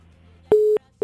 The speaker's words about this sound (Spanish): Se cortó la llamada, se cortó.